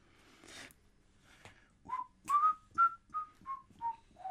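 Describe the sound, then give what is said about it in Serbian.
A person whistles a run of short, clear notes after a couple of breathy, airy attempts, the notes growing louder and then stepping down in pitch toward the end. “Zviždanje je dobro. Samo ne tako veselo.”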